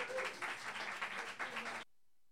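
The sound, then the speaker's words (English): An open-mic audience applauds to welcome a performer, a steady wash of clapping that cuts off abruptly into silence. “So please, let's have a nice welcome for my friend Hannah Cranton.”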